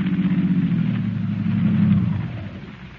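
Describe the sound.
Car engine in a radio drama sound effect: a low, steady rumble that swells slightly louder, then dies away toward the end.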